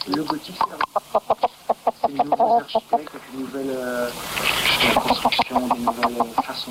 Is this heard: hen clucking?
yes